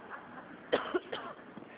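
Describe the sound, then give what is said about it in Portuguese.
Coughing after choking comes as a couple of short, fairly faint coughs from a woman, with quiet throat sounds after. “desculpa, dei uma engasgada aqui.”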